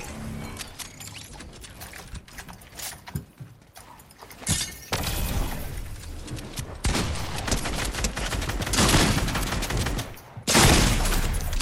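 Gunfire in the video game Fortnite: many rapid shots fired in loud bursts, separated by short quieter gaps, with some bursts hitting harder than others.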